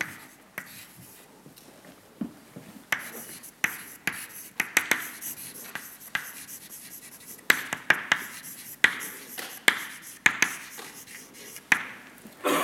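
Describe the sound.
Writing during a lecture: a faint series of many sharp taps and scratchy strokes, sparse at first and coming in quicker, more regular bursts in the second half, with no voice.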